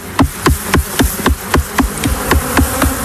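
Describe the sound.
Loud, continuous buzzing from a large male honeybee drone, seemingly agitated, pulsing rapidly and regularly as its wingbeat swells and fades many times.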